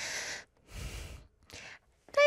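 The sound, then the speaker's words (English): A sneeze being held back: a few breathy, snorting bursts of air come in short separate puffs, ending with a brief voiced sound. “I have to sneeze”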